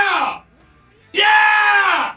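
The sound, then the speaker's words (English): A man screams loudly on request to celebrate wins: a brief raw yell, a pause, then a longer sustained, strained scream, both harsh and high. “I just get requested to scream. So I got to do two this morning for each win.”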